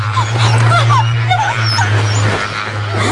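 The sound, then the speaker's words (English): A dog whimpers and yips at a birthday gathering, making a few short, high, rising whines over a steady low hum. “The dog pulls the covers off.”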